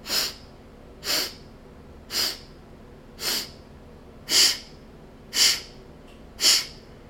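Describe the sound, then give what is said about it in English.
Segmented breathing in a four-part breath exercise, with air drawn and pushed in sections: seven short, sharp, nasal breath bursts at an even pace of about one per second, of similar loudness and with quiet gaps between them. “We'll inhale in four sections and then exhale in four sections. And so it sounds like.”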